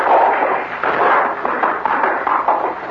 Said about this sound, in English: Sorry, I had to shoot out the lights, but I didn't want him to hit you.